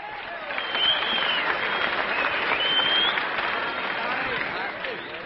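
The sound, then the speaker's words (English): Grand Ole Opry audience applauding to welcome guest Johnny Horton, a dense, sustained wash of clapping and crowd noise that holds steady for several seconds and eases slightly near the end. “it's guest time at our Grand Ole Opry, so what do you say we have a great big Grand Ole Opry welcome for Johnny Harton?”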